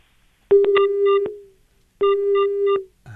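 A telephone busy tone after a call is cut off, heard alone as two steady, mid-pitched tone bursts. Each burst lasts under a second and they are separated by a silent gap, with another sound starting right at the end.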